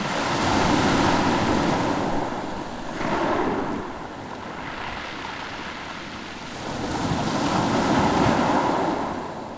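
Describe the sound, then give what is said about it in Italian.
Sea waves roll and wash in a steady, loud roar that swells and eases, with breezy wind noise blended in and no voices. “Il mare. Onde.”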